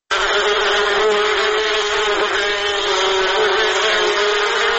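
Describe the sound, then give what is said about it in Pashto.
Honey bees buzz at a honey bee farm in Kunduz, Afghanistan: a dense, loud, steady drone of many wings that holds at an even level throughout, with no voices. “په کندوز کې د شاتو د مچیو فارم لرونکي د شاتو له تولید څخه راضي دي”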